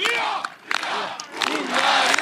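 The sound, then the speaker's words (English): Cheering and shouting from thousands of Hungarian voters at a victory rally on the Danube banks before the floodlit parliament in Budapest, rising in loud swells of massed voices separated by a couple of brief lulls. “Thousands of Hungarian voters lined the banks of the Danube and cheered as the man set to be their next prime minister, Peter Madja, took to the stage to claim victory in front of the floodlit parliament”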